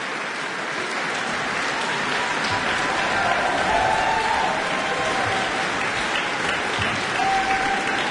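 A chamber music audience in Auckland's Concert Chamber applauds to call for an encore. The clapping is dense and sustained for the whole eight seconds, forming a steady, even roar of many hands.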